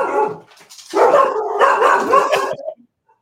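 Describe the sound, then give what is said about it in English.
Pet dogs barking and setting each other off: one short bark, then a dense flurry of overlapping barks and yips that stops abruptly. “My dogs worked up too. Oh, that's what happens, right? They set each other off.”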